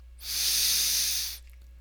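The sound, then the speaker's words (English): A single long, deep inhale during a guided breathing exercise: a steady, airy hiss lasting just over a second that swells in and tapers off, heard alone against a quiet background. “Just inhale deeply and let the rest just flow. The body knows how to breathe. We're just exaggerating the in-breath.”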